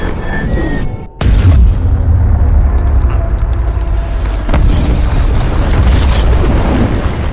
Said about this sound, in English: The first slams into the superstructure.